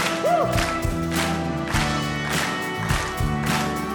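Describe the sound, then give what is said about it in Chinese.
Audience clapping hands together during a Christian praise song, steady rhythmic claps over loud music with a sustained melodic line. “好不好，我们不要只是70%的赞美哈，全心全力来赞美他，Amen。好不好，我们一起来拍手来，”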